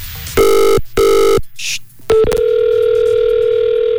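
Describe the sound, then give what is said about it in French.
A telephone dials out to place a call: two long, identical tones, a short high chirp, then a click and a steady continuous line tone that holds to the end. “Attention, je vais l'appeler maintenant. Ça compose le numéro.”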